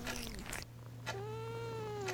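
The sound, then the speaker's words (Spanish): A cat purring with a steady low rumble throughout, broken by a couple of drawn-out, wavering meows that rise and fall in pitch. “Azazel ronroneaba a su lado con el pequeño motor que tienen todos los gatos”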